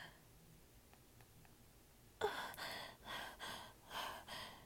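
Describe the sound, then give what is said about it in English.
A sharp, deep breath in bursts out of near silence, followed by a few rhythmic, breathy gasps at a steady pace. “She takes a nice deep breath.”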